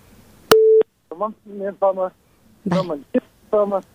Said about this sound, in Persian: فکر کنم تماس برادر ما قطع شد